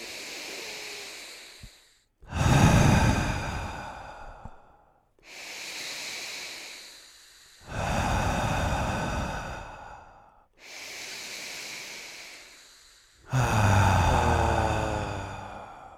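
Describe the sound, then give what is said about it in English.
Deep breathing in a guided exercise of three deep breaths: six long, airy breath sounds alternate between quieter and fuller, rougher strokes, each lasting two to three seconds, with no talk over them. “So wherever you are, just take 3 deep breaths.”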